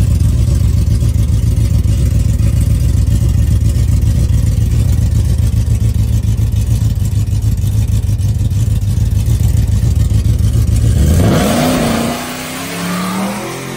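Supercharged car launching in third gear: a loud, continuous engine roar with a heavy low drone holding steady for a long stretch, then the note sweeps upward near the end as the loudness eases.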